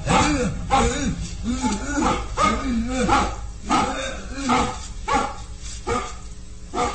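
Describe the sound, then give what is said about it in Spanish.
A large mastiff barks repeatedly in deep, full barks at a fairly steady rhythm, with many barks in a row. “Los ladridos del mastín se van escuchando más lejos hasta que desaparecen.”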